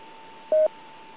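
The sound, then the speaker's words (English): A single short DTMF keypad tone sounds while a number is dialled through an amateur radio autopatch for emergency calls. The clean, brief beep rises above a faint steady tone. “Are you willing to dial the number and let him take the call?”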